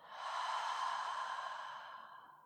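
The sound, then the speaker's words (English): A full breath in and out at the close of a yoga practice, heard as one long, soft, airy breath that swells gradually and then fades over about two seconds, alone without talk. “First, take a full breath in and a full breath out.”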